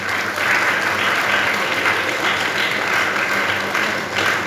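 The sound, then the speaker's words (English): A student audience at an institute talk gives a round of applause, with dense, continuous clapping that stays loud and even for the whole stretch. “You can give yourself a round of applause”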